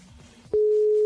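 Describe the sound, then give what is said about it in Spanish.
A telephone line tone sounds while dialing someone who had sent a message. A soft, low murmur gives way to a sharp click, then a loud, unbroken, even-pitched tone holds to the end. “Vamos a marcarle. Estoy marcándole la persona que mandó un mensaje. Vamos a que conteste, ¿no?”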